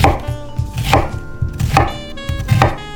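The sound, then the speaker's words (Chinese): Knife chopping an onion into large chunks, a few sharp, evenly spaced strikes with softer cuts between them, loud and alone without any talk. “把洋葱切成大块，一方面比较不容易烧焦，另一方面也好观察熟度。”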